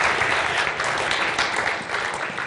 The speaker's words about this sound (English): Maybe we can clap him back to his seat.